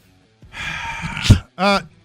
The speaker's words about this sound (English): that was a hell of a breath